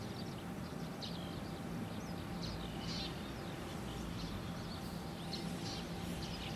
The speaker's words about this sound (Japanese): もうこの時期になるとヒバリがすっごいジュクジュクジュクジュクジュクジュクジュクって鳴いてますね。まあ、ヒバリだけじゃなくてスズメも鳴いてます。